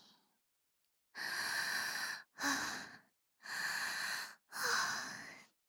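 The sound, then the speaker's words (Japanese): Heavy, aroused breathing from a woman: four long, loud breaths, each a sustained breathy rush separated by brief silences. No speech. “興奮が高まってくるとどんどん息が荒くなって、必死に酸素を求めて”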